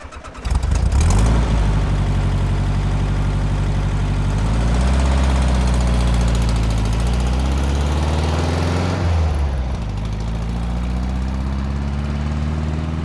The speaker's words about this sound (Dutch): Volkswagen Kever kan ik acuut herkennen.